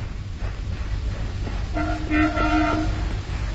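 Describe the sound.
A train rumbles low and steady beside troops at their training ground, and partway through its horn sounds in a few short, loud blasts over the running noise.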